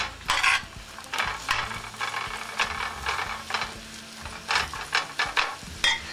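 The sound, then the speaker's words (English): Onions and peppers being stirred in a hot pan, a spoon scraping through the vegetables in many short strokes over a soft, steady sizzle, fairly quiet and without voices. “give it a stir.”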